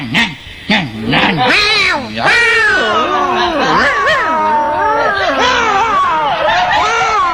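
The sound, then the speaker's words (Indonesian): Cats fighting: loud, continuous yowling caterwauls with wavering, sliding pitch. The howls overlap and rise and fall without a break. “Wis kucing bengkarokan keluar.”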